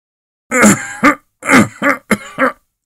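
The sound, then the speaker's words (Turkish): An old man coughing in a fit: about six harsh, rough, hacking coughs in quick bursts, loud and throaty, with short gaps between them. “İhtiyar durmadan öksürüyordu.”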